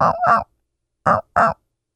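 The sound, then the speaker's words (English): A human voice imitates a turkey hen's yelp with four short nasal, throaty notes. The notes come in two pairs separated by a clear pause. “I learned that instead of doing a four-note yelp softly, if I do one or two notes, if I go”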